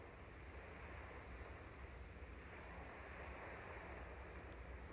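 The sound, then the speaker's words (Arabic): Ocean waves wash onto a beach in a steady, continuous rushing roar. The sound is fairly faint and stays even throughout, with no distinct breaks between waves and no voices. “عم نسمع صوت الموج”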